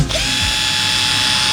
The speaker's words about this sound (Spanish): No, es una herramienta que utilizamos montones. Es un taladro